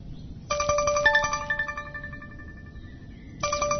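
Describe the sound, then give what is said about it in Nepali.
A mobile phone ringtone sounding for an incoming call: a bright, melodic run of chiming tonal notes. The phrase starts again just before the end, with no voices over it. “अरे फेरि उसैको phone आयो, अब उठाउनु कि नउठाउनु?”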